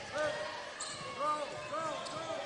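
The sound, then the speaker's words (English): A basketball dribbled on a court gives repeated hollow bounces in a steady rhythm under a commentator's voice. “with a basketball. Dribbles to the far side.”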